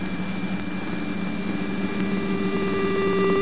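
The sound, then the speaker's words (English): The mechanical movements of a charged-particle detector aboard the Voyager spacecraft produce a steady, droning hum layered with several constant tones. It grows slightly louder toward the end and has no voices. “comes from the mechanical movements in one of the other scientific instruments, a device used to detect charged particles.”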